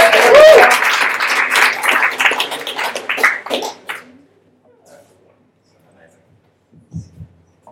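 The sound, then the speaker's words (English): Applause and cheering from an audience welcoming guests, loud at the start, then tapering off and stopping about halfway, leaving near silence with a few faint noises. “Please put your hands together and make them feel welcome for Sarah and Jordan!”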